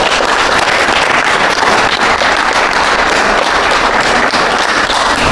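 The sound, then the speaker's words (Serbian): An audience applauds a young author at a children's book presentation. The clapping is loud, dense and continuous, with many overlapping claps forming a rough, crackling wash. “Ja molim jedan veliki aplauz.”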